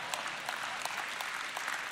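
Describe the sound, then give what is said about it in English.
Audience clapping during a sermon, a sustained patter of many hands at a moderate level. The applause holds steady from start to finish without voices standing out. “y'all should maybe clap right there or, you know, say something”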